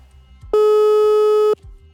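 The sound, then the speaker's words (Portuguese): A telephone ringing tone sounds as one steady, pure electronic tone lasting about a second, loud and constant, with faint low noise before and after. “Vamos ligar para ele.”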